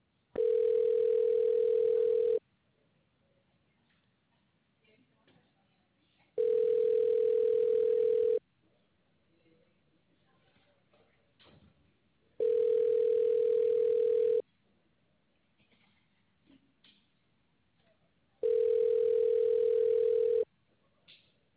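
Telephone ringback tone while a call is being transferred: four steady, single-pitched tones, each about two seconds long and evenly spaced by longer silent gaps, fairly soft.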